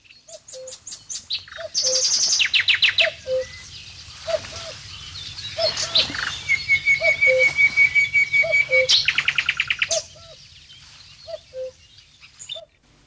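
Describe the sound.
Birds call loudly in a forest, with many rapid chirps, high buzzy trills and a long thin whistle, all over a faint low background hum.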